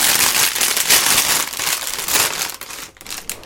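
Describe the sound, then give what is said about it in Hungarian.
Crinkling of a numbered plastic parts bag being torn open for a toy car building kit: dense, crackly rustling, loud and steady at first, then thinning into scattered crackles toward the end, with no voices. “Közben kibontom a 18-as zacskót, mert hogy elérkeztünk a 18-as zacskóhoz”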